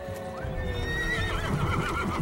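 Restless horses neigh in a drawn-out, quavering whinny with clear, wavering pitch. The whinny stays fairly faint, with soft shuffling hoof clops and low rustling underneath.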